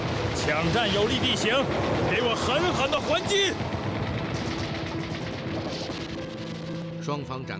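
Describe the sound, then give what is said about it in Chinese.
Heavy gunfire from a dramatized battle, dense rapid bursts and cracks crowding the first few seconds and then thinning into a lower, rumbling exchange of shots, with shouting voices mixed in. “抢占有利地形，给我狠狠的还击！双方展开了激战，李一鸣这边也和敌人交上火了。”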